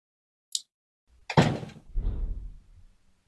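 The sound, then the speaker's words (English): A door closes with a single heavy thud, preceded by a brief faint click. A low rumble follows and fades out over about a second. “sorry, I paused there because there was a door closing”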